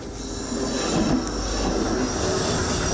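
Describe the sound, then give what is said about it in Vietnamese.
A train passes near a railway tunnel mouth at about 70 km/h or more, making a loud, continuous rumble topped by high, sustained wheel squeal. “Thì nói chung cho tàu trong này ra là như rất là nhanh, đây nó chạy tốc độ từ 70 trở lên”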